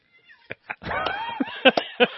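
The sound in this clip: A cat meows and yowls as it runs through a flame and catches fire in a video clip: short sharp cries, then a drawn-out wavering yowl, then more loud bursts.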